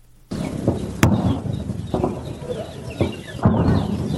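Birds chirp and cluck over steady outdoor noise in the farmland and orchards of Kandahar's Arghandab area, with a sharp crack early on and a few louder bursts.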